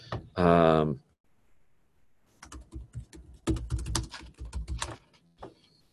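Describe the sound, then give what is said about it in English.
Computer keyboard typing as a search is entered into DuckDuckGo: a brief voice, a pause, then quick bursts of light, uneven key clicks. “All right, so just as an example, I just typed in Incredible Hulk into DuckDuckGo.”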